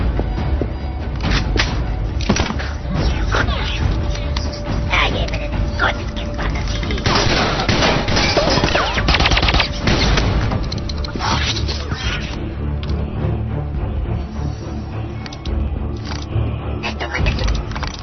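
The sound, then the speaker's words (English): Gunfire breaks out on the underdeck of Air Force One, with bursts of shots buried in a loud, dense wash of noise, and voices can be heard in the mix. “Shots fired in the underdeck. Repeat, shots fired.”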